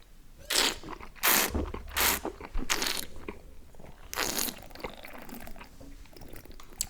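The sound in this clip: Noisy slurping sips as someone tastes a nutty, almond-scented drink of 12 percent alcohol: several sharp, airy bursts spaced irregularly, with quieter mouth sounds between them and no talk.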